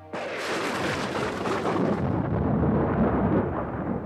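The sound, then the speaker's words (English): Thunder crashing over a house during a storm: a sudden loud crack that rolls straight into a deep, heavy rumble, sustained for several seconds without easing off. “Lightning flashed and lit the library. Thunder crashed over the house.”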